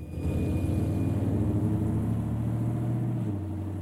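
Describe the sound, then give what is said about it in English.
A car engine running while the vehicle sits parked, a steady low rumble with a humming harmonic drone that keeps an even level and dips slightly in pitch near the end. “he heads back to his own car, which has its engine running”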